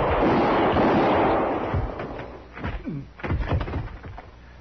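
Gunshots in a shootout from a 1951 western radio drama: a noisy rumbling stretch, then a few sharp, loud bangs spaced out over the following seconds, with no voices.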